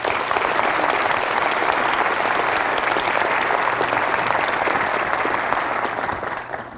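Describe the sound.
A church audience gives steady, dense applause to welcome a guest speaker. The clapping stays loud and even throughout, then tapers off slightly at the very end.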